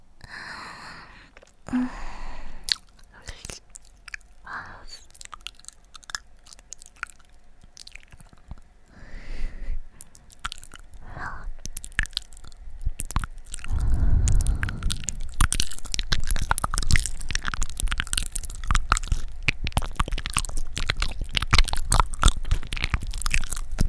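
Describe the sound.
Chewing and crunching food: many crisp, crackly bites and wet mouth sounds, sparse at first, then growing denser and louder through the second half.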